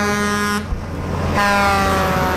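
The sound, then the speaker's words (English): Doppler-effect 18-wheeler truck air horn sound effect: two loud, sustained, brassy horn blasts separated by a short gap, with a steady low engine rumble running throughout. “I've got a truck horn sound effect on my device here, on my machine. It's a Doppler effect 18-wheeler air horn, which sounds like this.”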